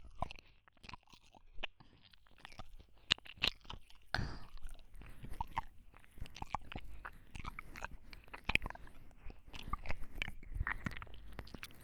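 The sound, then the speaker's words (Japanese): Wet biting and chewing mouth sounds of ASMR ear-eating on a warm, lotion-covered ear, a quiet, dense, continuous stream of soft crunches, clicks and smacks with no talking. “君の耳、熱くて噛み応えがあって最高に美味しいわ。”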